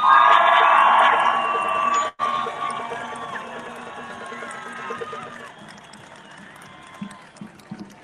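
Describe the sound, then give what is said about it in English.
A crowd at an outdoor freedom rally in Trafalgar Square, London, cheers, whoops and applauds. The sound is loud and dense at first, cuts out for a moment, then carries on as a gradually fading wash of clapping and scattered shouts. “So give everybody a round of applause for getting here.”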